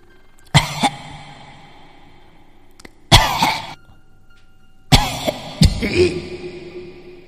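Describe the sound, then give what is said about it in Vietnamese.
Raspy, wheezing coughing like that of a person with long-standing asthma, coming in three separate harsh bursts with quiet pauses between them and no talk. “Thế rồi có tiếng ho bắt đầu vang lên. Cái tiếng ho như là ống bơ rỉ của người hen lâu năm.”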